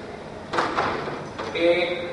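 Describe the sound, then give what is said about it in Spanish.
A door being closed during a presentation: a short scraping rush followed by a softer second knock, with a voice starting up right after. “¿Me pueden ayudar a cerrar la puerta, por favor?”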